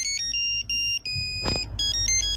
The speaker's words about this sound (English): Name this polyphonic ringtone.